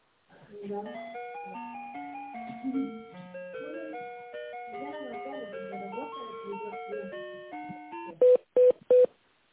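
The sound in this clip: A simple electronic hold melody plays while an office telephone call is transferred to another department, a steady tune of bright tones followed by three short, loud beeps at the end.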